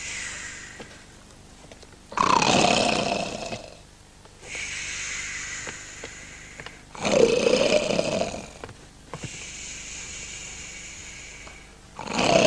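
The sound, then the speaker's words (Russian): Loud, rasping snores from a drunk man lying on a sofa, in slow cycles: two heavy rumbling snorts and a third starting at the end, with quieter, breathy hissing exhales between them. “На диване храпит пьяный Илья Медведь.”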